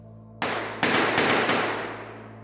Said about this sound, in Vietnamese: Hàng loạt tiếng súng nổ vang trời.